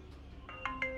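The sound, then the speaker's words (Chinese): A smartphone video call notification tone sounds as a few short electronic chimes in quick succession, each brighter than the last, over a faint steady hum. “季行辰的手机响起了视频通话的提示音”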